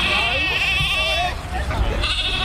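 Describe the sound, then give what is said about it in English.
Lambs bleating at a farmers' rally outside the Korean embassy in Canberra, with several high, wavering bleats, some overlapping, over a steady murmur of voices. “6 weeks later, farmers from the Bailong Valley were outside the Korean embassy in Canberra wanting KEPCO to sell the land in the Bailong Valley back to farmers. They had their lambs with them.”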